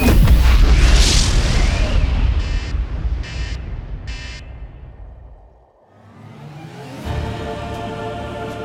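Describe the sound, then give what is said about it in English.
Thousands of nuclear space missiles launch from Earth with a loud, sustained roaring rumble, and three short buzzing bursts rise above it. The roar dips into a brief lull, then surges again toward the end. “Here come all of humanity's nuclear space missiles. Impressive. Oh, there's gotta be thousands of them. Emerging from Earth's bluish hue. Delivering absolute destruction.”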